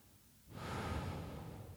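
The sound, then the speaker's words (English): A slow, soft exhaled breath during a guided relaxation breathing exercise. The faint, airy rush begins about half a second in and carries on steadily to the end, with no talking. “Pause and then comfortably exhale.”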